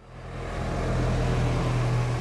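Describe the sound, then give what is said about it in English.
Thick traffic rumbles along a main avenue in a capital city as cars crowd past stores and clubs. A continuous low roar swells over the first half-second, then holds steady with a deep engine drone beneath. “Traffic is thick on Georgia Avenue, one of the capital city's main thoroughfares. Cars crowd past Howard University, some stores, clubs.”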